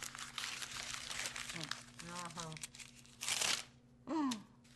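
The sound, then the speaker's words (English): Paper pages ripped off notepads in a Mummenschanz mime act, where performers tear away sheets to reveal new faces: two short, loud tearing bursts near the end, after quieter rustling and faint vocal sounds. “They're engaging in a silent conversation by ripping off the pages to reveal each new expression.”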